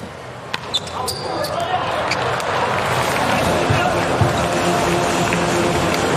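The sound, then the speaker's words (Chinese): A volleyball serve is struck in a Poland versus Ukraine match, with a couple of sharp slapping thumps early on and then steady crowd noise with voices. “莱曼斯基的发球”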